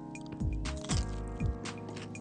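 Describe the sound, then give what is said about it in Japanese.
Crisp crunching of golden-browned, fried chopped lotus root being bitten and chewed: a few sharp, brittle crunches spaced about half a second apart over a steady low background tone. “いい音がします。 うん、このレンコンの刻んだ感じは、 はい、 すごく歯触りがシャキシャキとしてて”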